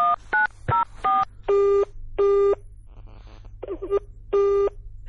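Telephone being dialled during a tense domestic moment: a few quick, high beeping keypad tones, then several longer, evenly pitched tones, all over a low steady hum with no talk.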